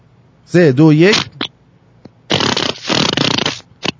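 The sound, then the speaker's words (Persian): A loud fart sound effect with a low, wobbling buzz, followed by several noisier sputtering bursts. “بزن یارو گوزوه رو بریم یه گوز برای این بده، بگوز”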